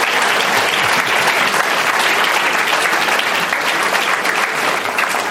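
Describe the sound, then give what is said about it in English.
Audience applause for panelists at a forum on Republicans and climate change, with loud, dense clapping from a large crowd that stays at a steady level throughout. “Let's give them a round. Thank them for getting through that climate closet.”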